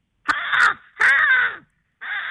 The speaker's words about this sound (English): American crow.